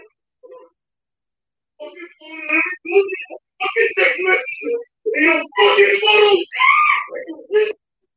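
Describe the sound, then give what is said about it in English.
A woman screaming in a video being played: loud, strained, high cries come in a series of bursts over several seconds. “So you can only hear her screaming in the video. It sound bad.”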